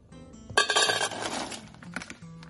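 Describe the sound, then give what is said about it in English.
Chocolate pieces tumble into the metal top pan of a double boiler set over water kept at a low boil, a bright clattering burst of clinks and rattles that settles into lighter scattered clinks, with no talk. “Get the top pan on, and now we're going to get our chocolate added in.”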